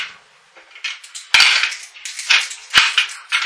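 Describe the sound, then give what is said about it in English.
Dice rattling and clattering at a tabletop role-playing game, with a steady run of bright, sharp clicks and several harder knocks that stand out. No voices are heard. “stop playing with the dice”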